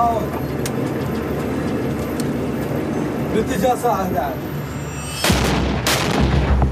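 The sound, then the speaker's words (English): Gunfire from an enemy-held building about 60-70 meters away, during an Iraqi special forces offensive in Anbar province: a few sharp shots and booms break through a constant noisy din, the loudest near the end. “There's an ISIS held building and they're firing at us.”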